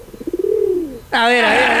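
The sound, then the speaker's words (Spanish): Mavas pigeon cooing: a soft, pulsing low coo that draws out into a smooth, gently falling tone. A louder, richer warbling call follows abruptly. “De hecho, ahí te habla la paloma Mavas. Una paloma muy rara de ver. Si quiere, esta es la paloma Mavas.”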